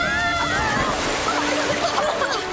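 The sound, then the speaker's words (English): An ocean wave crashes over a ship in a radio drama effect, heard as a continuous loud roar of surging, sloshing water and wind-like hiss that holds steady throughout, with voices faintly mixed in under the rush. “Watch out! Here comes another wave!”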